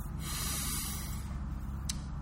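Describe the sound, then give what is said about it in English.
A deep breath drawn in during a guided breathing exercise, a steady, airy hiss that holds at an even level for about two seconds with no talking. “And we do so by taking in a big, deep breath. So let's do that together.”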